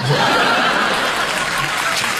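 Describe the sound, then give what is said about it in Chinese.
Audience applause at a crosstalk comedy performance, a dense, steady wash of clapping that stays loud and even throughout the whole stretch. “这就别鼓掌了，这就。哎，这什么呀？ 这个掌声是从开场到现在最真实的一回掌声，我听到的。”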